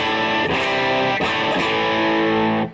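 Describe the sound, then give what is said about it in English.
An electric guitar with slight overdrive rings out in loud, sustained chords, struck a few times with crisp attacks, their gritty harmonics holding steady before the sound fades away at the end. “that's just like slight overdrive”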